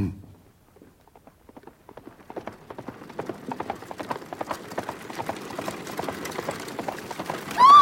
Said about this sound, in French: Place! Des chevaux emballés!